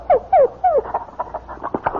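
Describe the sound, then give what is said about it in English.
A dog gives three short whimpering yelps, each sliding downward in pitch, followed by fainter scattered taps and shuffling. “Say, you've got a dog and a beauty. Hello, boy.”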